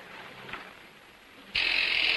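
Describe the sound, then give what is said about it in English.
A door buzzer pressed at a dirty wooden door: after a stretch of faint background, a harsh, steady electric buzz starts abruptly and holds loud and unbroken to the end. “He carries his suitcase to a dirty wooden door and presses a buzzer.”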